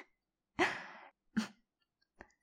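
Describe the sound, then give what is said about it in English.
Quick, breathy intakes of breath like gasps: a longer airy breath, then a shorter sharp one, then a faint brief third, all quiet with no speech. “I hear quick intake of your breath”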